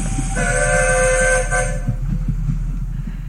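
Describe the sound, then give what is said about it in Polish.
A train blows its horn in a loud, harmonic chord held for over a second above a steady low rumble, then the horn stops and the rolling rumble carries on. “Albo do żelaznej maszyny, którą ludzie nazywają tak. Pociąg.”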